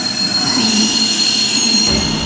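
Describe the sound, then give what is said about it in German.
A train rolls by with a loud, steady rumble and a sustained high metallic wheel squeal running throughout; the low rumble drops away near the end while the squeal continues. “Entschuldigung, fährt dieser Zug nach Amsterdam?”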